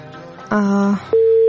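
A telephone line tone after a call is cut off: two steady electronic beeps, a lower one and then a higher one, each held briefly over faint hiss.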